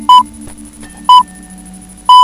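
Three short, loud, pure high beeps, evenly spaced about a second apart, sound as the hourly time signal on a community FM radio station marking seven in the morning.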